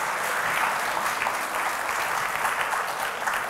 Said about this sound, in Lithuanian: Pasitikim plojimais.